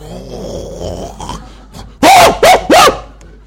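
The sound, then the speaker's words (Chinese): A man's voice imitates a dog barking to scare off village dogs, giving three loud, gruff bark-like bursts in quick succession after a quieter stretch of low vocal sound. “当我一咁样一吠嘅时候咧，啲狗惊噶，会走噶”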